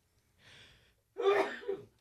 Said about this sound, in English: Pardon my sneeze.